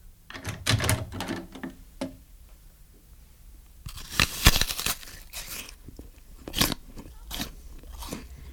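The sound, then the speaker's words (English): Crunching bites into an apple followed by chewing, loud crisp crackling bursts in two clusters separated by a quiet pause of about two seconds, each trailing into softer chewing. “Someone's eating Don's apple. Who? Who's eating Don's apple?”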